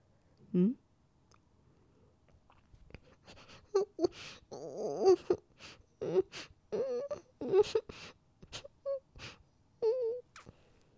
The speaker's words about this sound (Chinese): 别哭，好好说话，不要坏了我的心情。